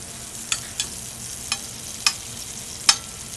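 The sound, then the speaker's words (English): Sliced garlic fries in olive oil in a hot pan, a steady hiss of sizzling. Five sharp pops or utensil taps stand out at irregular intervals. “I'm going to start off with the sliced garlic into the pan.”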